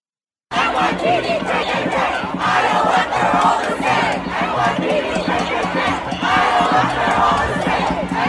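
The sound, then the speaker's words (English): Protest crowd chanting political slogans against police and Israel, many voices shouting together in a loud, continuous roar with a rhythmic, repeated cadence that runs unbroken for several seconds after a brief silent start. “All right, they're saying NYPD, KKK, IDF, they're all the same.”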